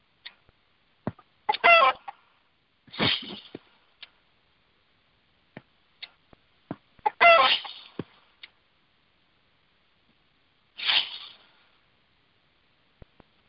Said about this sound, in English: All right, I'll leave that chicken out there alone.